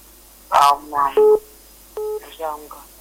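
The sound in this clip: Telephone dialing tones on a call line: two steady dual-tone bursts, each a fraction of a second long, sound between stretches of voices and line noise.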